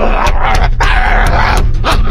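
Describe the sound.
Dog barking while it bites at a person's leg: a few sharp, loud barks and yips rise over a constant noisy background.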